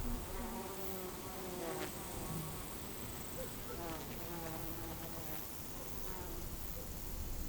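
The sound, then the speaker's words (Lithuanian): Bees and bumblebees buzz in a faint, continuous drone, with a few louder passes rising and fading over the steady hum. “kol už nugaros dūzgia 45 bitės devynios kamanės ir kiti, kurių vardų irgi nežinau”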